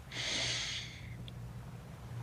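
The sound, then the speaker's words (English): A deep breath drawn in through the nose, a single sharp, airy rush lasting about a second, then quiet with a faint steady low hum underneath. “Take a deep breath in”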